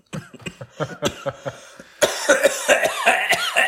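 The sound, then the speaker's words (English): Spluttering coughs from a person who has just inhaled Mountain Dew soda: many rapid, harsh coughs in an uneven rhythm that grow louder and rougher in the second half. “Oh my God, are you dying? I tried to breathe the Mountain Dew. It doesn't work.”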